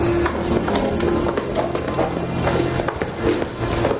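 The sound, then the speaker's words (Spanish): Footsteps go down a flight of stairs, many quick hard taps in a fairly regular rhythm at moderate volume, with no speech. “baja las escaleras”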